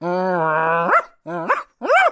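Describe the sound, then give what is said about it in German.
A dog up in a tree gives a long, drawn-out whining howl, then two short, sharp barks with brief gaps between them. “Oh, krass. Ein Hund im Baum.”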